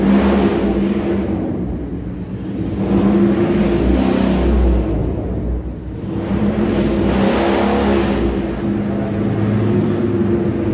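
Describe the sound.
A motorbike engine drones past, a loud mid-pitched whirring that swells and fades a couple of times, with no talk over it.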